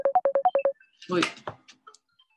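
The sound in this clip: A phone signals an incoming call with seven quick, evenly spaced two-tone electronic beeps, followed by a voice and scattered noises.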